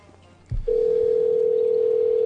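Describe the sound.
A telephone dial tone sounds before a call is placed. A short thump comes first, then a loud, steady single-pitched tone continues unbroken to the end.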